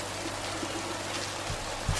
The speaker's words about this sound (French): Le sucré dissous, c'est bon. On verse les pêches.